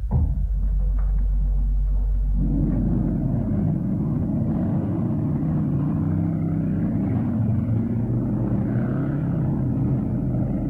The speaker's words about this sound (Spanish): oprimió el acelerador hasta el fondo